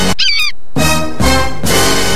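A bird honk sound effect: one goose-like nasal honk at the start, loud and alone, followed by harsh, noisy bursts.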